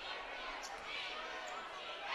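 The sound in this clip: A basketball is dribbled on the court during a Russell County versus Clinton County game, the bounces blurred beneath steady, dense crowd noise that holds level throughout.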